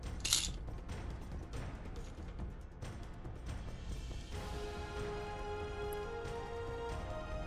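Several dice being rolled: a dense run of small, quick clicks and clatters as the dice tumble, fairly faint, continuing without a break.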